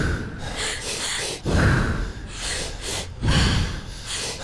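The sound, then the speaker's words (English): Quick, forceful breathing exercise of two breaths in and one out: rapid, noisy bursts of inhaling and exhaling that follow one another closely, loud and alone with no talk. “So it's like two breaths in, one breath out.”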